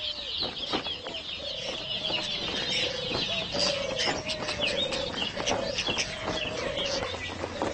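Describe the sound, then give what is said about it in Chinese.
Nestling birds calling for food from their parents: dense, continuous high chirping fills the whole stretch, joined by a repeating series of lower, drawn-out tonal calls at a steady pace, with no voices. “雏鸟焦急地等着父母送来美餐，此时的它们正是长身体的时候，需要补充大量的蛋白质。”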